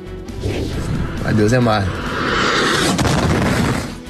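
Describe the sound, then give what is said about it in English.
A Russian missile strikes an apartment building in Ukraine, producing a loud, sustained roar of crashing and rumbling noise, with a voice briefly heard over it. “And you saw right there video capturing the moment a Russian missile strikes an apartment building in Ukraine.”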